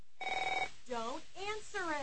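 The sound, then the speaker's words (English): A telephone bell rings in one short, trilling burst of rapid pulses, then stops, and a voice begins talking. “If fear strikes your heart when the phone rings, knowing it may be another bill collector”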